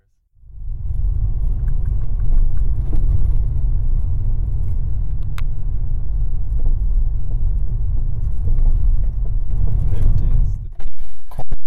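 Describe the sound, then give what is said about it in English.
A car drives through empty streets at night on a pizza delivery run. A loud, steady low engine and road rumble holds throughout, then breaks off briefly near the end. “We drove around for a bit and then turned onto the customer street.”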